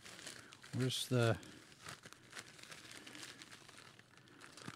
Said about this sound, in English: right, so now let's see what the big envelope has in it. This is books. Well, it feels like maybe it's two books.